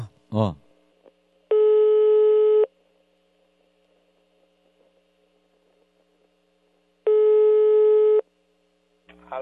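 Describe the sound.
A telephone ringback tone sounds while a call connects: two long, steady electronic beeps of about a second each, separated by several seconds of quiet line hiss, with brief voices at the start and end.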